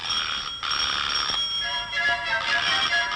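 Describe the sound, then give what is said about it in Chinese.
A telephone rings with a bright, high electronic trill in repeated bursts separated by short gaps, with no voices over it. “你嘅电话又嚟 啦！”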